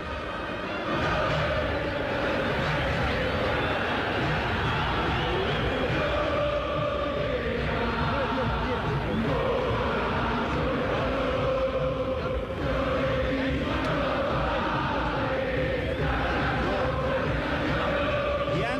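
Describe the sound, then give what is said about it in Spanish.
Boca Juniors fans roar in the stands at Tomás Adolfo Ducó stadium as the team takes the field, a dense, unbroken wash of crowd noise that stays loud and level throughout. “de los hinchas de Boca aquí en el Tomás Adolfo Ducó. Enloquecieron cuando el equipo saltó al terreno de juego, Fabio. Sí, me quito ahora mismo y vamos a escuchar todo eso que vivimos en las diferentes graderías, los diferentes sectores del estadio.”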